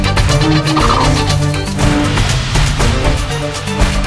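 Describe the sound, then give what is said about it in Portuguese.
Giant farm birds of a once nearly extinct breed, part of a flock of over a hundred fed on winter mornings, gobbling in loud, overlapping turkey-like calls that repeat without pause. “Durante o inverno, estes homens desafiam temperaturas abaixo de zero para alimentar as gigantescas aves.”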